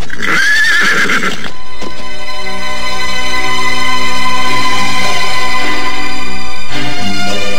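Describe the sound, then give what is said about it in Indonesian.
Horses being spurred on as a loud, shrill whinny rings out for the first second and a half, followed by a continuous, dense, loud layer with clip-clopping hooves. “Kita pacu kuda-kuda kita ini. Ayo.”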